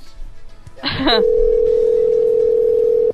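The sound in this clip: A steady, unbroken telephone dial tone holds for about two seconds after a short burst of handset clatter, heard while a number is being dialed.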